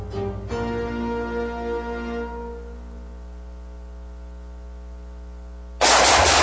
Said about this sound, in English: Whew, nice shooting.